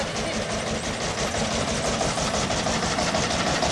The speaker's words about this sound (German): Er fährt jetzt die Lok wahrscheinlich da hinten vor. In Wartestellung.